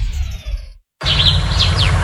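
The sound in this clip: Birds chirping in spring: a short burst of bright, high tweets over a steady low rumble, following a brief moment of silence.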